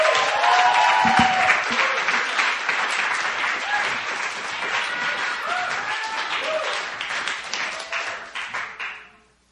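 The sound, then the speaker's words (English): Audience applause welcomes a speaker to the stage at a testimony gathering: dense, steady clapping from many hands that holds for several seconds, then fades away at the end. “let's put our hands together. Let's welcome up our sister Sarah Boyle.”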